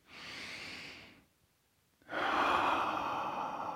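Deep breathing during a yoga flow class: two long, airy breaths separated by a quiet pause, the second louder and fuller than the first, with no talking.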